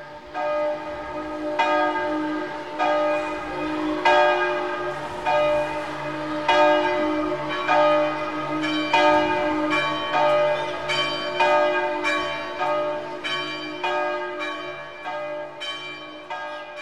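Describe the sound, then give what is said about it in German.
Church storm bells ringing as an alarm, many steady rhythmic strikes with long ringing overtones that overlap and sustain, loud and continuous throughout with no talk. “Nach dem Abmarsch der etwa 7000 Frauen läuten die Sturmglocken, alarmieren die Nationalgarden.”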